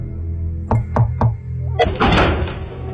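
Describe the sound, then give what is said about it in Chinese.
Knocking on the door of a thatched hut: three firm, evenly spaced knocks, then a louder, noisier burst of sound, all over a steady low background hum. “他带了洪亮、乔泰、马荣三个人到那茅屋的门前开始敲门”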